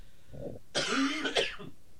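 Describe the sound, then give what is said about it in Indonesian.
A rough cough from a caller on a phone line during an evening religious study session. It comes as one moderately loud, harsh burst with a brief raspy tail, and soft breathy sounds come just before and after it. “Ana agak batuk di malam hari ini.”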